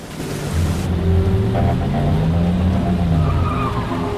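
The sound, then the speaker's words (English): A truck driving close behind a car in heavy rain gives a steady, loud engine rumble mixed with a broad wet hiss of tyres on the road, holding level throughout with no voices. “As Simon struggles to see through the rain, a truck follows him, driving up to his bumper.”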